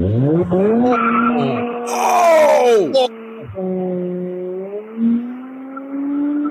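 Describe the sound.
Car tires squeal loudly with engine noise as the clutch is popped. The tones are sustained and strained, drop sharply partway through, then settle into a steadier squeal that continues to the end.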